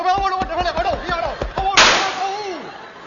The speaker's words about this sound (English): I won't. I shot him.